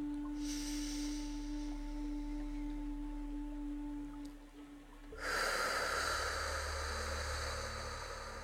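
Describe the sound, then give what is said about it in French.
Slow breathing during a relaxation exercise: soft, airy breaths that are quiet and drawn out, the later one a louder rushing exhale that swells and then fades. “Nous allons faire quelques respirations ensemble, si vous le voulez bien.”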